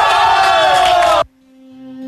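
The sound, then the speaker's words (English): Hockey players roar and whoop together in the locker room after a Washington Capitals win, a loud, dense burst of shouting that cuts off abruptly into near quiet. “Love the sounds there from the locker room following the Caps win.”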